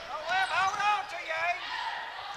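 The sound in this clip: A basketball is dribbled on a court during a game, a few soft thumps under a commentator's steady talk.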